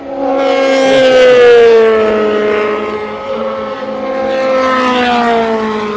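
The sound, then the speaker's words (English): Race cars lap a circuit at high speed, the fastest near 322 km/h, giving a loud, continuous engine whine whose pitch drifts slowly downward as it swells, eases, then builds again. “I'm just going to listen to the cars for a few minutes. Now, the fastest cars are lapping at what, 322, something like that.”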